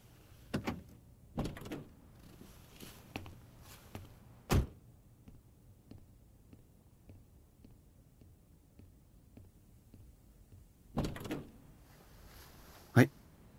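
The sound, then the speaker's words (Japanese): A car door is unlocked and opened: a few sharp clunks and thumps come in separate bursts with quiet stretches between them, fairly faint overall. “よし、それじゃあロック外すけれど、そのままな。”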